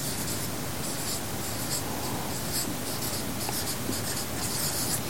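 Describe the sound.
Scratchy writing on a board while a ray is drawn: a steady, rough rubbing that runs without a break for the whole clip, with no talk over it.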